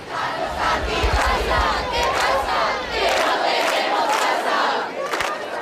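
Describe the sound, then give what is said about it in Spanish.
A protest crowd shouts loudly and continuously, many voices merging into a dense, unbroken roar of yelling that holds its strength throughout. “no apaga la protesta, cada vez llega más gente y los gritos suenan más alto”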